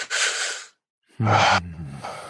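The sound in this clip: A deep, relaxed breath of relief: a long airy inhale, a short pause, then a sighing exhale that starts with a brief low voiced hum and trails off softly.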